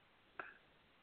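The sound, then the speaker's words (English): A short electronic chirp from a video game controller's built-in speaker during a baseball game: one faint tonal blip that fades quickly over soft hiss. “It's the remote control talking to you. Nice. It's your controller.”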